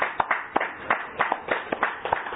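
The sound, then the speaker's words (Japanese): A church audience claps in celebration, producing a quick, fairly even run of hand claps at a modest volume. “よろしければ一緒にですね、拍手でお祝いをさせていただきます。”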